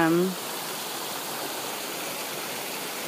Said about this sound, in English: human-made waterfall, but the illusion of it is all very pretty.